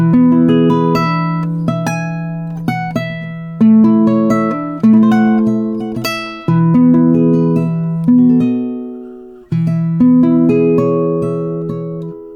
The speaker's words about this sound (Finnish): Sellaista mulla ei ole tässä nyt, mutta sitten meillä on myös tällaisia pienempikokoisia kitaroita, joita sanotaan oktaavikitaroiksi tai sopranokitaroiksi, se on oktaavia normaalia korkeammalta. Ja niillä, no se kuulostaa tältä, mä näytän.